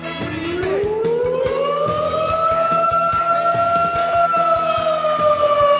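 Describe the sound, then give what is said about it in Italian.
A loud siren wail that sweeps upward in pitch at the start, then holds a steady high tone for several seconds. Faint clicking sounds run beneath it. “La serenità che mi dà la sirena del Pride, pochissime altre cose.”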